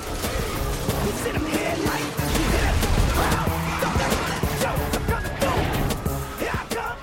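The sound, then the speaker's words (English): Debris from a smashed freeway sign crashing down onto several police cars during a chase, heard as many loud, sharp impacts and metallic clatter, with heavier crashes in the middle. “he flies down over the police chase and smashes through a freeway sign. The debris crashes down onto several of the police cars, destroying them.”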